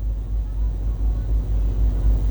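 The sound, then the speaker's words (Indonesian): Road traffic flowing smoothly through a four-way traffic-light intersection in Banjarmasin: a steady, continuous low rumble of passing vehicles with no distinct horns or single events. “Dapat kita saksikan bersama situasi arus lalu lintas di simpang 4 Traffic Light Gatot Subroto Dalam terpantau lancar di semua arahnya”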